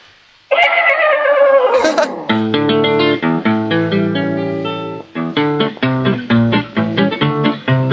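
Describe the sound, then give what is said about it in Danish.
A horse whinnies loudly with a shaky, wavering cry at the start of a cowboy song, and then the song's rhythmic, twangy instrumental music starts up and carries on to the end. “Det er en hest. Det må være en hest, det der. Kommer galopperende.”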